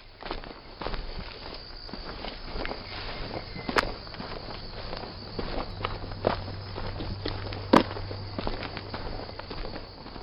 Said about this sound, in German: Und jetzt endlich gehe ich auf den Grotten- und Kreuzweg.